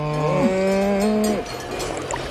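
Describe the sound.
A single long, low cow moo in the Alps, a steady droning call lasting over a second that bends and drops in pitch before it breaks off, followed by a quieter background.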